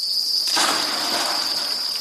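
Crickets chirp on a cricket farm in Kyrgyzstan, a steady shrill high-pitched trill that runs without pause, with a broad hiss swelling in after the first half second.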